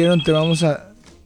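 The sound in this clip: Electronic telephone ringing signals an incoming call on a phone line: a bright, buzzing tone with steady harmonics sounds in a few quick pulses, then fades quickly.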